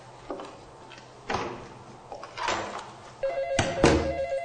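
Telephone ringing in a tense domestic scene: a few soft knocks and rustles, then a louder, metallic ringing tone near the end, with no voices.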